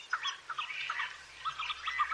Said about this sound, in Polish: Ten śpiew ptaków jest tutaj bardzo słyszalny, szczególnie wiosną, kiedy ptaki są wtedy aktywne.